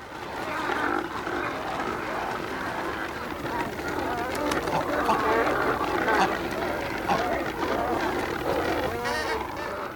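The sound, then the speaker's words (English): A nesting colony of cormorants gives a dense, unbroken clamour of harsh croaks and honking calls from many birds at once. The overlapping calls stay at a steady level throughout. “The soundtrack? A nesting colony of cormorants.”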